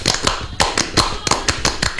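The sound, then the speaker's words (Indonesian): Tepuk Pramuka, the Indonesian Scout clap: a group claps in unison in a fixed, syncopated pattern of many sharp, crisp claps grouped in short bursts, with brief gaps between the groups. “Salam Pramuka. Salam. Tepuk Pramuka.”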